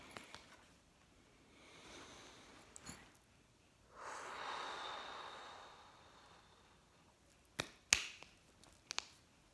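Deep breaths drawn in while someone steadies themselves: soft, airy rushes of breath, a faint one early and a longer, louder one in the middle, followed by a few sharp clicks near the end, with no talking.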